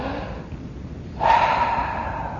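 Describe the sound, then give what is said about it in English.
A single deep breath during a meditation practice begins abruptly as a breathy rush and trails off gradually over about a second, preceded by quiet hiss, with no voices. “For me personally, I find all I really have to do is just take a deep breath.”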